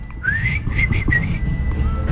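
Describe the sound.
A parent whistles to call a child in a neighbourhood: a loud whistled note glides upward, then a few short, high whistled notes follow in quick succession before fading.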